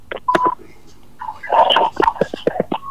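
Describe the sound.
Telephone touch-tone dialing as a call is connected, with a series of short beeps mixed with brief, noisy bursts, fairly loud and irregular in spacing.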